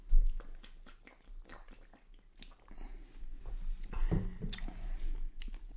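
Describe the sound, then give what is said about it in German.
Beer being drunk, with wet gulping and swallowing noises in a few irregular bursts, fairly quiet, with no talk. “So, jetzt trinken wir mal.”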